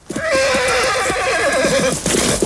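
A horse neighs loudly in a long, wavering whinny that holds for about two seconds with a trembling, shaky pitch, heard on its own as it rears up in a meadow.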